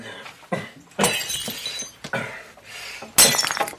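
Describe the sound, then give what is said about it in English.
Glass jars being smashed: several loud crashes of breaking glass, each followed by bright tinkling shards, with the final crash sharpest. “Fine. You smash those jars.”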